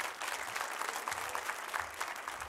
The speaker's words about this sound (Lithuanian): Pasitikime plojimais.